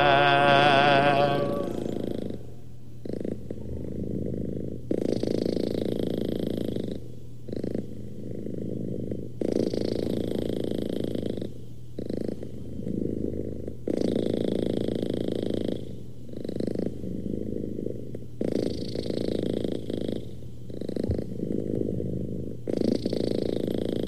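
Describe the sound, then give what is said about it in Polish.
A cat snoring and purring in a steady, rhythmic cycle: each breath is a low rumbling burst followed by a short pause, repeating many times with no voices. “A to właśnie kot tak chrapie.”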